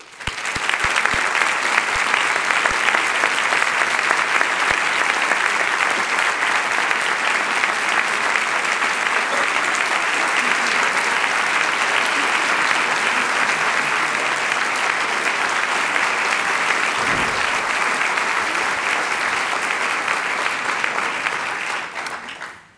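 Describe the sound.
An audience applauds to welcome two special guests onto the stage for an evening talk. The clapping swells quickly, holds dense and steady for about twenty seconds, then stops abruptly.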